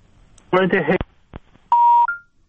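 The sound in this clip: A dropped telephone call: a short burst of voice cuts off, then a click and a single steady electronic beep as the line disconnects.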